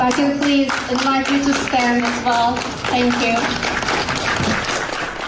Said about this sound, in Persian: اجازه میخوام که به افتخار ایشون برخیزم و دست بزنم.